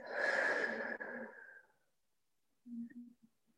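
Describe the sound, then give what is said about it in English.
A slow, deep exhale during a guided mindfulness breathing exercise: a long, soft, airy rush that gradually fades out, followed by a brief quieter sound after a pause. “Let's do that two more times. Breathing in and breathing out.”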